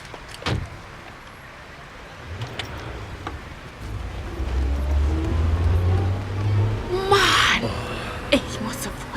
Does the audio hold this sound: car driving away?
yes